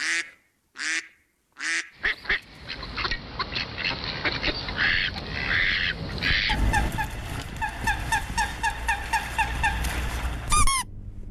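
Calls of several duck species follow one another. Three loud, separate quacking bursts open, then dense chattering calls, then a steady series of repeated calls, and a squeaky rubber bath duck ends the sequence.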